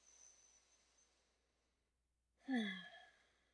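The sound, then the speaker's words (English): One deep breath is taken during a guided self-reflection exercise. After a faint hiss and near-silence, a single loud, breathy inhale and sigh rises sharply and then fades. “nice deep breath”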